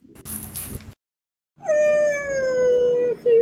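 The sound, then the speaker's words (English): A dog's howl: one long, steady, loud tone that drifts slightly lower and breaks off briefly near its end. A short burst of rustling noise and a silent pause come before it. “This is your childhood dog, Oostis”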